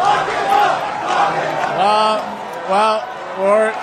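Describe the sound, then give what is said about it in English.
Crowd chanting at a Conservative campaign rally in Canada: a loud chorus of many voices shouts in repeated rhythmic bursts, each phrase swelling and falling. “Those comments led to a chant that would probably sound more appropriate at a rally for President Trump in Canada's near neighbour.”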